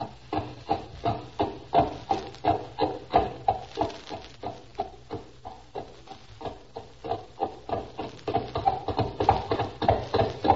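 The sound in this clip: Hoofbeats of a horse named Bess trotting, a steady, even series of many sharp clops in a regular rhythm that grows slightly denser and quicker toward the end.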